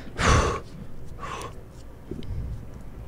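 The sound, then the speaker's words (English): A voice imitates a cork being pulled out of a bottle: two breathy mouth bursts, the first louder and longer, followed by faint rustling. “It's like pulling a cork out of something.”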